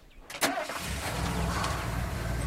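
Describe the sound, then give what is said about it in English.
A Jeep engine starts with a brief cranking burst, then settles into a steady mid-pitched running rumble that continues to the end. “As Jeff and Tracy appear, she determinedly puts it in gear and drives away”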